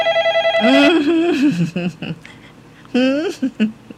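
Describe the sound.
A telephone rings with an incoming call to a radio call-in show, giving a short burst of rapid, evenly pulsed ringing before a voice begins to talk.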